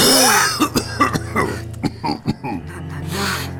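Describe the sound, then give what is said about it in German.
A fit of coughing: many short, rough, hacking bursts in an uneven rhythm, with strained throaty sounds between them. “So ein Husten.”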